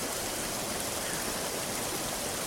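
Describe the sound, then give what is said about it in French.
Turbulent river current rushing past, a steady, even wash of churning water that holds a constant, fairly quiet level with no breaks or voices. “Avec le courant tumultueux de cette rivière, nous serons ballottés comme du blé dans l'estomac d'un sauteur.”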